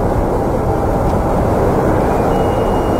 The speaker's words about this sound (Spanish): Pero ese está tomado de afuera, pues tendría que ser uno tomado desde adentro del avión, ¿o no?